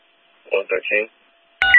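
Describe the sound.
Telephone keypad dialing tones as a call is placed: three quick touch-tone beeps in a row, then after a short pause another brief sound.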